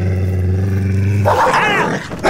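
A dog growls and attacks: a low, steady rumbling growl breaks into a loud, harsh snarl, then cuts off before one more short snarling burst at the end.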